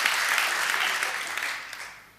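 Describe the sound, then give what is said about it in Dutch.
Applause from an audience, a steady, dense patter of many hands clapping. It gradually fades and dies away toward the end. “Laten we Sjoerd een geweldige applaus geven.”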